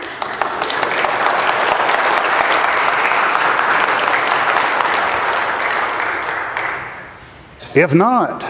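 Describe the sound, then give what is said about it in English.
Applause for a choir, with a large audience clapping steadily for about seven seconds before it dies away and a voice begins speaking. “I promised them that when I had an opportunity to get up here, I would give you the opportunity to thank the choir by clapping if you want to.”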